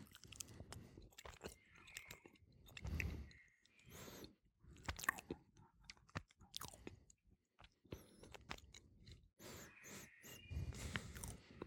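Chewing of cheese during a tasting of Appenzeller and other cheeses: soft, moist, irregular chewing and small crunches, quiet throughout, with short pauses between bursts of mastication.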